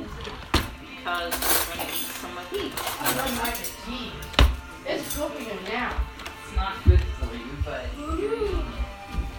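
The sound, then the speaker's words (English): Knives and cutlery are taken out in a kitchen, giving a few sharp metallic clinks and scattered rattles amid ongoing conversation. “I'm going to get some knives out so we can cut it. We need a clean knife for each one.”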